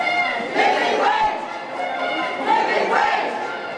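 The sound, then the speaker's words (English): Retail workers stage a loud protest at St Luke's shopping mall in Auckland, a dense crowd of voices chanting and shouting together in rising surges, with a few stronger swells over steady background hubbub. “There's been the occasional quite loud protest, as in this clip from 2019.”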